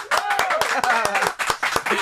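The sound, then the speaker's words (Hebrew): Hands clap in a radio studio, a few people applauding with quick, evenly spaced claps while voices cheer over them. “כפיים.”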